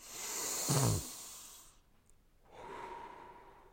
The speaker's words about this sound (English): This time, focus solely on the sound of your inhale.